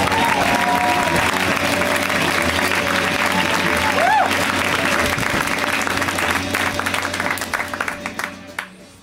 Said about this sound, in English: Make some noise right now for the very funny Nick Nemeroff.